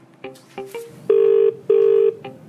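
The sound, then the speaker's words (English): Telephone dialing tones as people dial into a conference call: a few quick electronic beeps, then two long, loud, steady tones separated by a short gap, and one more brief beep at the end. “We're just waiting for everyone to dial in now”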